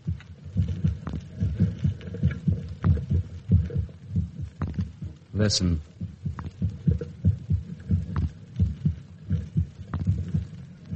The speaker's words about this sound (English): That sound is the first and last sound in your memory. It is the pulsating of a human heart.